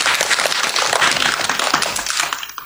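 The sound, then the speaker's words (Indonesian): Audience applause for a friend who has just sung a song, with a dense, steady patter of many hands clapping at an even level from start to finish. “Terima kasih untuk teman kita yang telah menyanyikan lagu Makan Jangan Asal Makan. Kita beri tepuk tangan untuk teman kita.”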